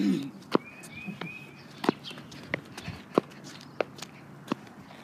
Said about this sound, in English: So he's walking this way. And there we go. So he's walking all the way.